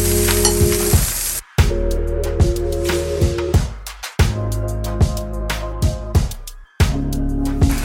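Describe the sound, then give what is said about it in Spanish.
Butter and oil sizzling in a hot frying pan, a loud, steady crackle that briefly drops out a few times before surging back. “Vamos a poner aceite, que ya tengo en mi sartén, mantequilla, esté bien caliente, lo esparcimos.”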